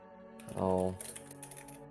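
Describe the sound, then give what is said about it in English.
Light, rapid keystrokes on a computer keyboard as a message is typed into a chat. A short voiced sound comes just before a quick run of crisp clicks that continues to the end. “Let me write it down so you guys can all see it in the chat.”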